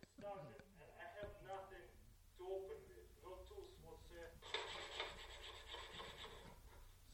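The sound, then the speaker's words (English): Tin can of tuna ground by hand against a piece of concrete to break its seal: a steady, loud rasping scrape that follows people talking. “So you just grind it on the concrete and you grind it down, yeah. It eventually like pops the seal. Then you have tuna.”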